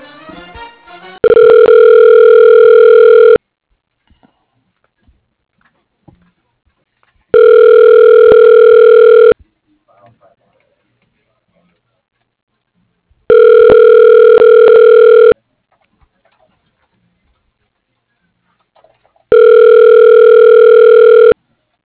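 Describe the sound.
A telephone ringback tone plays while a call is being transferred to an extension: four steady electronic rings, each about two seconds long, separated by roughly four-second silences, with no talk during the rings.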